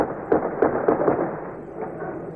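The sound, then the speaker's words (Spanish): A few sharp gunshots from firearms crack out over a noisy street protest where tear gas is being fired. The reports are irregularly spaced and moderately loud above a steady crowd rumble, with a weaker one trailing after. “Se escuchan también algunos disparos de armas de fuego.”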